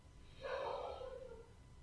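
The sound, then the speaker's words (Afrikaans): A single slow, deep inhale through the nose during a seated guided relaxation exercise: a faint, soft airy breath that swells and then tapers off, with no talk. “Haal so 'n paar keer lekker diep saam by asem. En by neus.”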